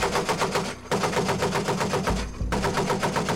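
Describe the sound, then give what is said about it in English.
Rapid automatic small-arms gunfire during a convoy security mission in Iraq, a loud, dense stream of shots broken by two brief pauses. “We are receiving small arms fire north of checkpoint 22 Alpha.”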